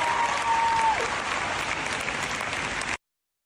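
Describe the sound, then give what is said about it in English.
Crowd of supportive allies applauding, a steady, dense roar of clapping that holds evenly, then cuts off abruptly near the end. “The applause from the crowd of fellow allies who also love women.”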